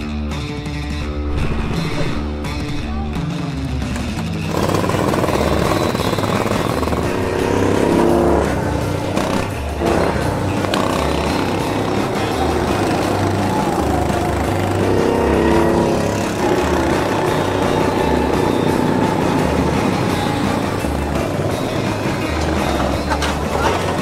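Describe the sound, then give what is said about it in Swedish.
Go-kart engine driving outdoors, a loud, continuous motor drone with a rough buzzing tone that holds steady for the whole stretch, rising in intensity a few times as the throttle opens. “Go-kart nu.”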